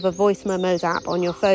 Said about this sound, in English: As you can hear, there's some birds singing around me right now, so there's quite a lot of bird song on the pod in the background